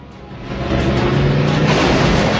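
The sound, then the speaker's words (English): Two cars set off in a race on a dusty track, heard as a broad, steady roar of engines that swells sharply in loudness early on and stays loud. “the two cars set off past her in a cloud of dust.”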